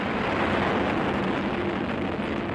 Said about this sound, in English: T-minus 18 seconds and counting engine start.